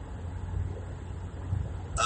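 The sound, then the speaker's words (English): A car driving on the way to work gives a steady low rumble of engine and road noise, even and unbroken, with no one talking. “So it's now Tuesday, and I'm driving. And I haven't done one of these in a while, but I wanted to do a drive to work cast.”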